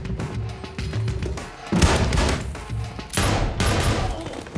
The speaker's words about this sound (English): He shoots him in the back.